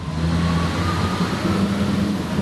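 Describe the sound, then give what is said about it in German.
Steady low diesel drone of a 91-tonne, 1217 hp visitor haul dump truck driving through the Erzberg open-pit iron ore mine, a constant rumbling hum with no change in pitch and no talk. “91 Tonnen, unser Besucher-Howli. Und natürlich jetzt für mich das Allerspannendste als Motorenfan. Wie viel PS hat dieses Gerät, mit dem wir da unterwegs sind gerade? 1217 PS.”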